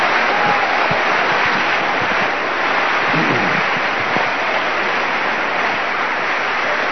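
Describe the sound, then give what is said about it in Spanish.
Applause from a church audience during a sermon, a steady dense wash of clapping that holds at an even level for several seconds without any voices. “Un aplauso al Señor.”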